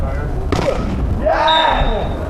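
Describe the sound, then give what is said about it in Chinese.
Volleyball dropping onto the court after a block during a Qingdao team match: one dull thud stands out beneath a male commentator's continuous speech. “拦防之后呢，球落在了场地之内，青岛市一队呢再次得分。”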